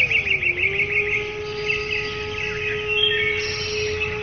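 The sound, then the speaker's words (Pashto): A bird singing, set in a folk tale of a golden bird: continuous high chirping trills flutter above a steady low humming tone, sounding bright and unbroken for several seconds with no voices. “زرین مارغه سندره پیل کړه”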